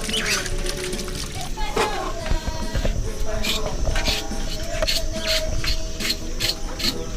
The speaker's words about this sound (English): Okay, let me wash my hands first.